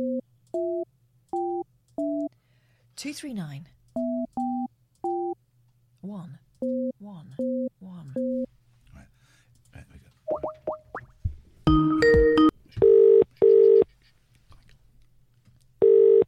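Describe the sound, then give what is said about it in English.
Telephone keypad tones beep out a number in quick, uneven bursts as a call is dialled to a shop. A short noisy burst follows, then repeated ringing tones sound in paired pulses. No one talks. “It's a phone call.”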